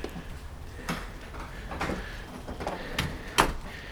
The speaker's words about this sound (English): When I gotta lock the door